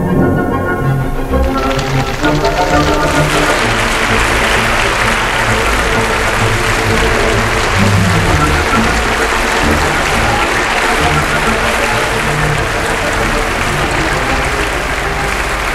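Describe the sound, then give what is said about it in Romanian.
Applause breaks out in a concert hall during a symphony performance, a dense, steady wash of many clapping hands that swells over the first seconds and then holds at full strength. “sala a izbucnit în aplauze”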